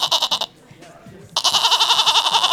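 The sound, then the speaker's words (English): A person imitates a goat bleating: a short quavering bleat, a brief pause, then a longer, loud, tremulous bleat with a steady wobble. “do you think this is the sound of a 5-legged goat? Well, you tell me, because to me you just sound like a normal 4-legged goat”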